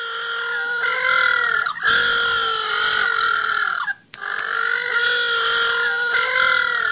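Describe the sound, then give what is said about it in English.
Little blue penguins calling: loud, continuous, harmonic braying calls in two long stretches split by a brief break, nasal and wavering, with no talk. “if you're wondering what that is the sound of little blue penguins”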